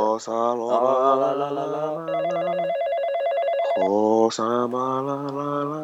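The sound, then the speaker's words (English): A telephone ringback tone sounds after a number is dialed, a single warbling ring burst of about two seconds set between stretches of voices. “Everyone join your hands and dial this number, okay? We'll call this number. Thank you. Okay, let's just wait for him to answer.”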